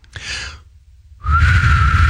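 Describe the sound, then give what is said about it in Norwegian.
A failed attempt at whistling that is mostly blown air: a short breathy puff, a pause, then a longer airy blow that carries a thin, steady whistle tone to the end. “dette er det beste forsøket jeg har på å prøve å plystre”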